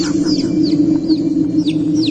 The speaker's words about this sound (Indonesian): Ayam.